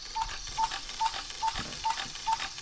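A mechanical cuckoo clock ticks six times in a steady, even rhythm after its hands have been set. The crisp ticks are faint against a hissy background.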